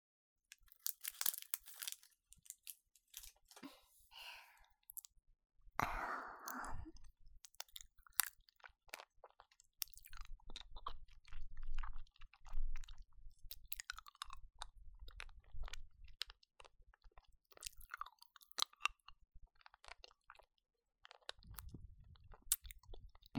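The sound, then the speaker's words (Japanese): Candy being eaten up close: quiet wet mouth sounds, crunching bites and chewing come in many irregular bursts, with no talking. “キャンディーを舐めたい気分なの。二人だけの空間で味わうキャンディーって、とろけるように甘いと思うんだ。”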